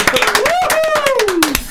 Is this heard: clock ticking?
no